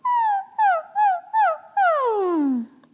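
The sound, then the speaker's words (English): A human voice imitates a puppy's whimper with five high, tonal whines. Four short whines come first, and a final longer one slides steadily down in pitch. “it's a puppy sound.”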